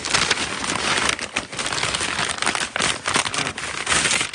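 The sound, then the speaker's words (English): A model knife cuts open a USPS priority mailing envelope, making dense, continuous crinkling and rustling with a sharp crackle. It fluctuates in loudness, with brief dips, and no voice is heard. “Tinker model knife to open this. It's one of those USPS priority mailing envelopes. It was just easier to cut it open.”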